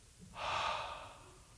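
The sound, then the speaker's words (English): A voice imitates a breath blown into someone's face: one soft, airy exhale that swells quickly and trails away over about a second. “He breathes on him.”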